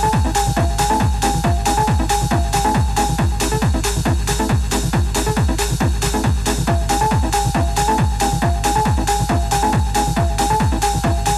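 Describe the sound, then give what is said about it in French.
Detroit techno track with a steady, fast kick drum pounding throughout and a repeating mid-pitched synth riff riding above it, loud and continuous with no voices. “Ce que vous entendez, c'est le DJ et producteur techno de Détroit”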